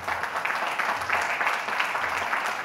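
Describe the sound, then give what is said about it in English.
Crowd applause at an event honouring teachers: dense, continuous clapping that holds steady at a fairly loud level throughout. “And let's have a big round of applause for Vaaki Foundation and Sunny Vaaki ji”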